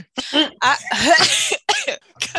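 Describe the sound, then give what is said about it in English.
Throat clearing and coughing from one person, a few rough, throaty bursts in quick succession with short pauses between them, fairly loud and with no talk. “Let me get my throat together.”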